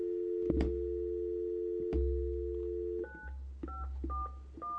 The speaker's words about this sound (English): So you can go ahead and dial.